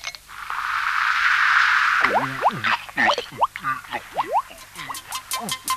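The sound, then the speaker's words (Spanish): Fizzy Menenap soda gulped straight from the bottle: a loud hiss of carbonation first, then a quick run of many squeaky, warbling, plopping gulps. “tómese una Menenap. De la botella nomás, dele de la botella.”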